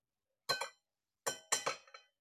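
Glass clinking as pieces of a large broken glass knock together: a few sharp, bright chinks, a short double clink, a pause, then a quick cluster of rattling taps that fade out.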